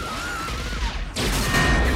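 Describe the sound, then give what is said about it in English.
Gunfire and crashing in an auditorium battle scene from a RoboCop film, with police firing from an upper tier. A loud burst breaks in about midway and gives way to a sustained, noisy rattle of shots. “Police officers run in and start firing from an upper tier of the auditorium, but Kane takes them all out as well as some of the people trying to escape.”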